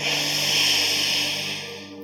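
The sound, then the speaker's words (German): A slow exhale through the left nostril during alternate-nostril yoga breathing. The soft, airy hiss holds steady and tapers off at the end. “Das Banda lösen und links ausatmen.”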